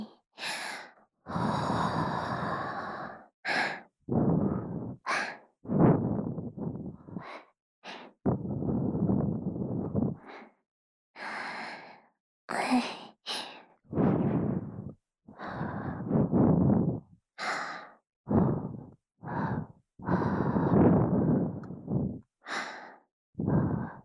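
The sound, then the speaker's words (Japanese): Breathy puffs are blown into the listener's ear in a Japanese ASMR roleplay of a school health-committee member. Many soft, whooshing breaths come in irregular bursts of varying length, separated by short silences, with no talking. “私は中でもお耳風が一番得意なようです。こんな風に、”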